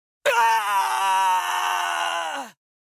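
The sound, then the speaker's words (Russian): A creature screams in agony after being struck by a wave of red-blue fire. The single loud, drawn-out wail holds steady for about two seconds, then drops slightly in pitch as it cuts off. “Крики мучений огласили округу, давая понять, что удар попал в цель.”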